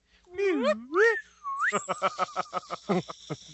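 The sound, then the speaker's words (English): A slide whistle sound effect swoops down and up in a few long sliding glides, followed by a quick series of short, choppy bursts. “that calls for a slide whistle.”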